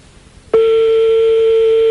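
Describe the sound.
Telephone ringing tone during a phone call: one loud, steady pure tone switches on abruptly after about half a second and holds unchanged to the end over a faint background murmur.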